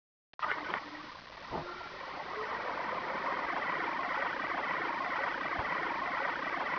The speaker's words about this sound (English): Car Selected Motor Generator Startup.